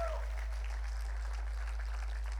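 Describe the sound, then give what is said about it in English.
Applause from a church audience clapping their hands, a steady, fairly faint wash of many overlapping claps that runs evenly through the whole clip. “Come on, if you believe it, give God a big hand clap right now.”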